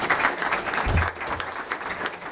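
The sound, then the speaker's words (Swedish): Audience applause for a participant in a panel discussion about an election: a short burst of dense, fairly loud clapping that stays steady for about two seconds before easing slightly. “Men en applåd för Martin också.”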